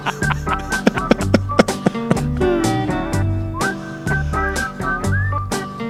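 Whistled tune from an award-winning rock album, a bright melodic line with slides between notes, set over a rhythmic backing of sharp percussion hits and deep bass notes.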